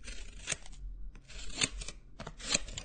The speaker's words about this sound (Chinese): 有剪刀，用剪刀把你的裤子剪烂